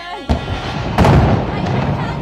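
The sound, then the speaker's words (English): Explosions from a building being destroyed during heavy bombardment in Gaza City: two sharp, booming bursts, the second heavier, rising out of a constant loud rumbling noise. “Gaza City is under heavy bombardment. On Wednesday, a reporter in Gaza captured the moment a building was destroyed.”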